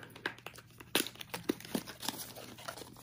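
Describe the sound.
Soft crinkling and rustling as a card is pulled out of a box, a run of faint, irregular crackles with a few sharper snaps.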